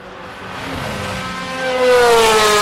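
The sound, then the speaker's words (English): A Ferrari race car drives past, its quiet engine giving a steady whining tone over broad road noise that swells louder toward the end. “See if I can tell you what's coming in time. Okay, Ferrari. Very quiet.”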